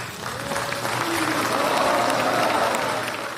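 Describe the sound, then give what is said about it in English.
Crowd applause at the signing of the US–Taliban peace agreement in Doha, Qatar: dense, steady clapping that swells slightly toward the middle and eases off at the end. “That's the sound of clapping in Doha, the capital of Qatar, where a representative of the U.S. government and a representative of the Afghan Taliban signed a peace agreement this weekend.”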